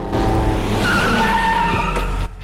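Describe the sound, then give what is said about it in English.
Car tires skid loudly as cars pull in at a garage where a car sits on a ramp. A sustained engine roar and tire screech lasts about two seconds, then cuts off abruptly. “She holds his gaze, then, hearing cars, turns to look over her shoulder. Han, working beneath a car on a ramp, turns to see DK and Morimoto arrive.”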